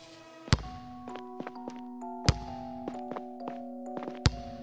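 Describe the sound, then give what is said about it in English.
A basketball bounces with three heavy, evenly spaced thuds and lighter taps in between, over sustained tonal music. “Sorry, can you stop bouncing that basketball?”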